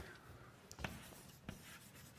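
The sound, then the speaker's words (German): Faint scratching of a function being written on a board: a few short strokes, two of them slightly stronger, over a very quiet background. “Und ich schreibe sie jetzt als F von T.”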